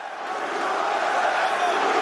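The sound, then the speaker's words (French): A boxing crowd at Madison Square Garden roars in a dense, sustained wall of voices that swells slightly at the start and then holds steady and loud. “On entend les USA, USA, et voilà qui réveille le public du Garden”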